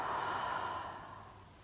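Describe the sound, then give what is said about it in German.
Deep breathing during a guided breathing exercise, in through the nose and out through the mouth: a single long, soft, breathy rush of air that slowly fades away. “Atme tief durch die Nase ein und vollständig durch den Mund aus.”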